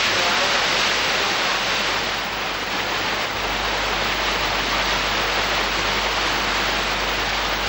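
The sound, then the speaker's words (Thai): A small mountain stream, the headwater of the Nam Kha in a valley below Doi Phu Rang Ka, flows down over layers of rock in a steady, dense rush of water without pause. “ลึกลงไปในหุบเขาของยอดดอยภูรังกาคณะสำรวจได้พบกับทานน้ำเล็กๆอันเป็นที่มาของต้นน้ำคะก่อนจะขยายสายน้ำลงไปตามชั้นหินสู่เบื้องล่าง”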